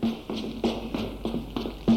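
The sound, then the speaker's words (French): Knocking on an office door on a first floor: a series of sharp, evenly spaced raps, moderately loud, with no talking. “Jeanne arrive au premier étage et va frapper à la porte du bureau d'Auguste.”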